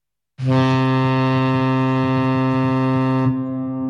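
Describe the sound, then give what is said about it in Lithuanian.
A steamship horn sounds a single long, deep blast on the Nemunas river. The rich, steady tone lasts about three seconds, then cuts off abruptly, leaving quiet behind it. “Kiekvieną savaitgalį banginio dydžio garlaivis jūsų patogumui po gražiausias Birštono Nemuno kilpas.”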